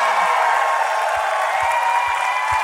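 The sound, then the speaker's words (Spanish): Applause for the Lord during a church service, a steady wash of crowd clapping with a few soft low thumps underneath. “Dale ese fuerte aplauso al Señor, aleluya.”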